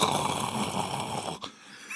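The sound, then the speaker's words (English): A person imitates snoring with a voice: one long, raspy, rattling breath that cuts off abruptly, followed by quieter breathing. “And then we'd go up to the bathroom door, and you can hear him just snoring”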